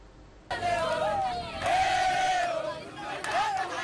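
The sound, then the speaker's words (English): A jubilant crowd welcomes a Congolese government delegation arriving in Sange after rebel forces withdrew, loud continuous cheering and shouting with high, wavering cries rising over the din. “Such was the sound of jubilation as a large delegation of Congolese government officials arrived in the town of Sange 3 days after rebel forces retreated from the territory.”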